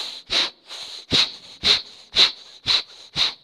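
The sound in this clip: Rhythmic breathing for breath-based dhikr, with no voiced sound from the throat. Six forceful, hissing breath pulses come at an even pace, each a short sharp push of air with quieter breath between.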